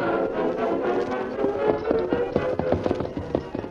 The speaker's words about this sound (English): They rode in silence for a long time.